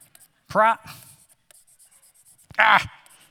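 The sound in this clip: Marker writing on a board: two sharp, squeaky strokes stand out, separated by quieter scratching and tapping as the writing continues.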